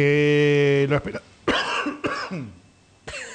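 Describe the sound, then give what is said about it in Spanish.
A person coughs a few times in harsh, abrupt bursts with short gaps between them, after a brief held voiced sound at the start. “Y con tos.”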